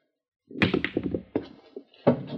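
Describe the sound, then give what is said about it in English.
A pool cue shot sinking the three ball: a quick cluster of hard knocking clacks, then a few separate thunks as the ball drops. “Just a second now. Watch me get that three ball down there.”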